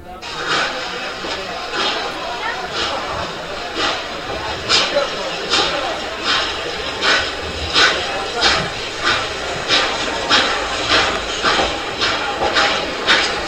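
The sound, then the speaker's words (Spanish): Steam train chuffing steadily: many rhythmic puffs over a constant loud hiss and rumble, regular and evenly spaced throughout. “Y nos hemos ido en un tren de vapor porque estamos ya alcanzando el año 1939”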